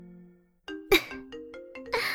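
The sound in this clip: A phone ringtone sounds, a short melody of clear electronic tones stepping between pitches after a brief pause, with a sharp noisy burst partway through.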